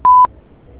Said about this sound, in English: please leave a message and your phone number after the beep